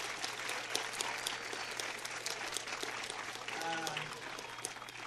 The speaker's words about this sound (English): They've been so good, haven't they? Let's give them a hand.